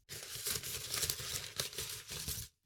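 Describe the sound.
Paper crinkling as a folded note is picked out and unfolded, a steady dry rustle with several sharper crackles that runs for about two and a half seconds and then stops.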